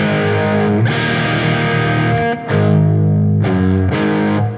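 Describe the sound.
Distorted electric guitar played with palm muting in a rock style: loud, fuzzy, chugging chords sustained in long phrases, separated by a few brief gaps, with no voices.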